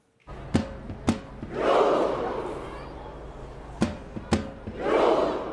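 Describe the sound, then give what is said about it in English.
Crowd of football fans welcoming Norway's national team home in Oslo, with two loud swells of roaring, cheering voices and a few sharp thuds around them. “Thousands of fans gathering there in Oslo to welcome the team home.”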